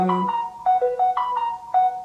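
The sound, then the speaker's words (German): A mobile phone rings with a bright electronic tune. Short stepped notes repeat in a quick pattern, clear and alone, with no talk over it. “hast du dein Handy noch an? Das ist sowas von unprofessionell.”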